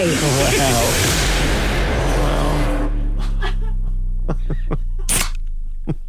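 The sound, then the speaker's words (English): A drink can cracked open, releasing a loud rushing fizz-like hiss that fills roughly the first three seconds, then cuts off as voices and tonal sounds take over. “Here's can one. Crack away.”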